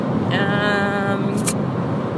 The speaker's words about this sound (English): Sorry, I'm driving. Just give you a little flashy flash there because I need to cross over again.